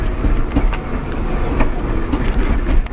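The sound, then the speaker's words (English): A car driving over a bumpy road, giving a loud, continuous rumble broken by many small jolts and knocks throughout. “Fuck me, now I'm driving over this bumpy ass fucking road because I'm trying to avoid driving into the sun.”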